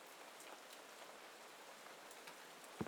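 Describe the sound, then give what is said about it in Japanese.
Rain falling steadily as a faint, even hiss with scattered light drop patters. A brief soft knock sounds near the end. “それにほら、雨だって降ってるわ。 雨か。”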